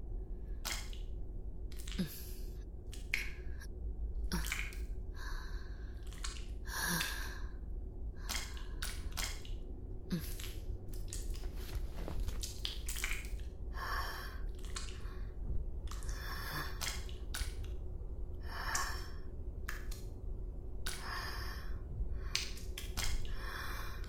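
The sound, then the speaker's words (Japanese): Heavy, uneven breathing from someone short of breath in thin, oxygen-poor air: many loud, breathy gusts come in and out at an irregular pace, with no talking. “私も酸欠気味かも。ちょっと呼吸が乱れるかもしれないわ。”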